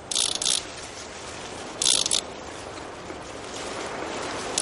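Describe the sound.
A child spins a ratchet noisemaker on a metal playground structure, giving two short bursts of rapid, bright rattling clicks separated by a gap, over a steady background hiss.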